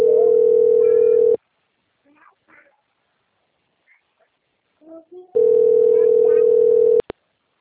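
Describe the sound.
Telephone call tone: two long, steady, buzzing tones separated by a quiet gap with a few faint scattered sounds, ending in a sharp click.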